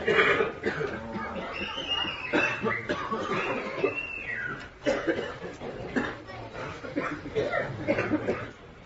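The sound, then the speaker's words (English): Several coughs break out amid devotional kirtan chanting in Vrindavan, short bursts scattered through a steady wash of group singing and voices. “It is a coughing kirtan. Somehow in Vrindavan even the coughing is quite melodious.”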